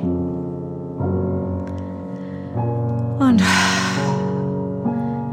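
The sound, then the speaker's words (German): A deep breath drawn in through the nose during a guided breathing meditation: one breathy inhale, about a second long, rising over soft sustained music tones. “Und atme noch einmal ein durch die Nase.”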